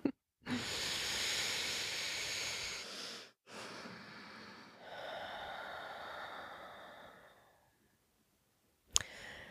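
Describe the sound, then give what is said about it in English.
A group takes a collective deep breath: long, airy breath sounds with a soft hiss run for several seconds, easing off to near silence before a brief sharp sound at the end. “should we take a collective breath together?”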